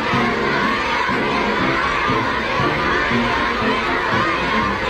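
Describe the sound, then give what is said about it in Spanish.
Cheering crowd greeting Donald Trump's arrival in China, with a dense, continuous roar of shouts, high cries and cheers held at a steady, loud level with no pauses. “Este es el sonido ambiente a su llegada, la verdad, podría ser el ambiente de la fiesta de mi calle, pero háganme caso, es el ambiente de la llegada de Donald Trump a China.”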